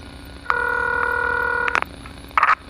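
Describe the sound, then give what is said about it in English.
An outgoing telephone call rings with one steady electronic ring tone lasting just over a second, followed by two short crackling bursts. “I dialed the call. There's no guarantee that they will pick up.”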